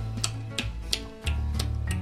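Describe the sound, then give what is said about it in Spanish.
A clock ticks steadily at an even, quick pace, about six dry clicks over a continuous low hum, with no talking. “Tic tac, tic tac. El reloj.”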